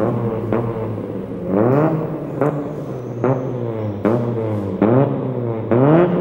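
A car engine revs and accelerates again and again, with many short, loud whines that climb steeply in pitch before dropping back. The engine is heard alone.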